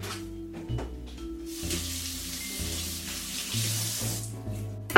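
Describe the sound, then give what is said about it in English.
Kitchen tap water runs over celery being rinsed to clear dirt between its stalks, a steady broad rushing hiss that holds for a few seconds on its own. “celery can kind of just hold a lot of dirt in the in-between layer, so I'm gonna give that a quick rinse.”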